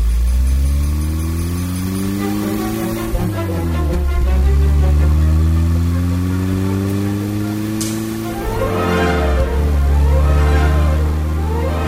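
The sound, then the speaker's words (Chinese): A new car's engine revs loudly and accelerates away, its whining drone climbing in pitch, dropping sharply as if shifting gear, then climbing again in repeated sweeps. “蛤蟆跳上车，发动了汽车，车子一溜烟就让蛤蟆给开走了。”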